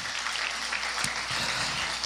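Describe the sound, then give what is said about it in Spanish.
Congregation applauding during a church worship service, a steady, dense wash of clapping that holds at an even level throughout. “Denle una ofrenda de palmas al Rey de Reyes y Señor de Señores.”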